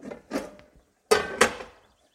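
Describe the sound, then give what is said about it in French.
A metal frying pan clatters as it is taken out and set on the stove to heat before cooking meatballs. A couple of softer knocks are followed by two sharper clanks, then silence. “Avant de faire mon petit coup de propre, je vais tout de suite sortir ma poêle et la mettre à chauffer.”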